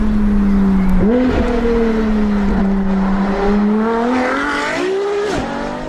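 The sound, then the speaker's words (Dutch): A combustion-engine Ferrari sports car engine holds a steady, loud, buzzing drone broken by several sharp rev blips that climb and fall back, the sound easing slightly toward the end. “Het geluid van een Ferrari pikt de kenner er uit duizenden uit.”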